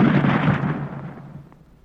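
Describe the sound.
A deep, booming blast from a rain-making gun fired after its fuse is lit hits hard at once, then rumbles and fades away over about two seconds.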